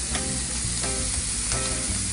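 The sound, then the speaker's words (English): Chopped spinach sizzles as it cooks in a hot pan: a steady, continuous frying hiss with a faint crackle throughout and no voices. “now I'm gonna add in my spinach. I chopped it up so it cooks a little faster.”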